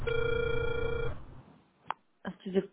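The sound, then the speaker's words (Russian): A telephone ringback tone plays as one steady electronic tone lasting about a second, then stops. Short bursts of speech follow in the quieter remainder. “Продолжаю вызов. Оставайтесь на линии.”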